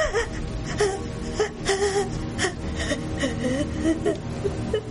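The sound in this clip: A frightened woman cries in a tense thriller scene after a fire poker is pulled away from her face: shaky whimpers, gasping breaths and wavering moans come in repeated uneven bursts at moderate loudness.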